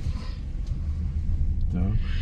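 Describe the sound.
Steady low rumble of engine and road noise from a car driving toward the main avenue at Stanford, with a voice briefly heard.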